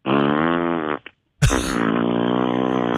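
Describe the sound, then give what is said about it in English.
A man's voice imitates farting, as heard from a man at the urinal in a restroom. A long, low, buzzing blat is followed by a tiny blip and a short silence, then a second, longer wet-sounding blat. “and so he's sitting there farting the whole time he's peeing.”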